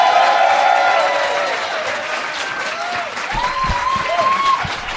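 Audience applause welcomes a comedian to the stage at a comedy show. The clapping is loud and dense, with crowd noise mixed in, and it stays steady throughout.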